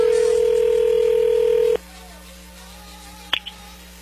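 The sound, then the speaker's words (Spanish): A telephone line tone holds steady for under two seconds as a call goes through, then cuts off abruptly. Near silence follows, broken by a short, sharp click. “ya entró ahí la llamada”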